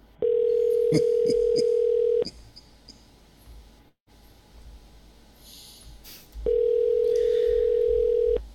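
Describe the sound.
A telephone dial tone during a prank call plays as two long, steady, mid-pitched hums of about two seconds each, separated by a few seconds of near quiet with faint clicks.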